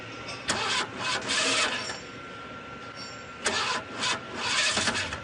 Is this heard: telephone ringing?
no